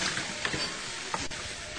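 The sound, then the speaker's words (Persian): Meat frying in a pan while being stirred, a dense and steady sizzling hiss broken by a couple of brief scraping clicks. “خب گوشتمون تقریبا میشه گفتش که پخت. بله تقریبا پخته.”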